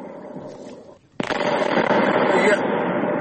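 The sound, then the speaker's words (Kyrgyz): Artillery shells and stored mines explode at a military ammunition depot in Krasnoyarsk Krai after a fire. A low rumble gives way to a sudden sharp blast, then a dense, roaring wash of crackling detonations continues. “Разрывы снарядов.”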